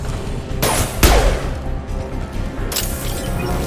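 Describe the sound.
Blasts from overloaded canisters destroying crates in a video game: a few heavy booming explosions burst out of a dense, roaring background of game noise.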